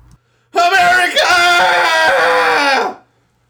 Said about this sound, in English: let's go ahead and do a cathartic scream. Here we go. In 3, 2, 1.